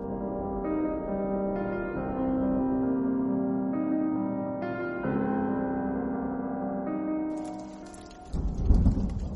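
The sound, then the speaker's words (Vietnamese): Rain falls on the eaves of a house as a steady, dense hiss with a deep rumble underneath, holding even for most of the stretch before a heavier rumbling surge near the end. “Tiếng mưa rơi rả rích xuống hiên nhà.”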